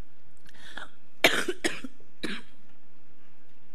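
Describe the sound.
Coughing from a sensitive airway: a few harsh coughs, three loud bursts close together after a fainter one, with nothing else sounding in the pauses.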